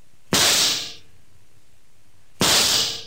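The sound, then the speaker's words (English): Two pistol gunshots in a radio drama: loud, sharp bursts with a hissy, decaying tail, roughly two seconds apart, with a low murmur of background noise between them. “You just pulled out your gun and you shot them both. Like this.”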